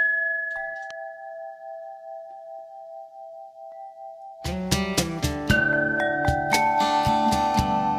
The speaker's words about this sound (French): Ça c'est un badgin, un instrument composé de tubes métalliques suspendus à l'horizontale sur un cadre et sur lesquels on frappe avec des maillets.